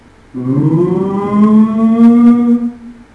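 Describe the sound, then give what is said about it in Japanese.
An air raid warning siren sounds during wartime bombing raids over Hiroshima. It is a loud, sustained wailing tone that swells upward at the start, then holds steady for about two and a half seconds before cutting off. “その度に危険を知らせる空襲警報のサイレンが”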